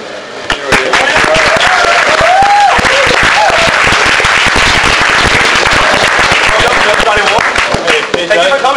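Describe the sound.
Loud audience applause welcoming a guest speaker as he enters, dense continuous clapping for nearly nine seconds with some crowd voices mixed in.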